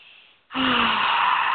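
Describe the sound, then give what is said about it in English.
A single deep breath taken during a guided relaxation exercise: a faint airy draw gives way to a loud, steady breathy rush that holds to the end. “Deep breath in and out. Another one. In and out. One big breath in.”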